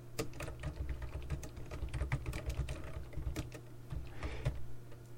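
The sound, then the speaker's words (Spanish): Rapid computer-keyboard typing of a Telegram message: many quick, uneven key clicks keep going over a steady low hum, with no voices. “Y perdonad que esté escribiendo, pero es que estoy escribiendo a mi esposa, que estamos, como veis, estamos en distintos sitios. Y voy a responderle por Telegram, porque yo con mi mujer me escribo por Telegram.”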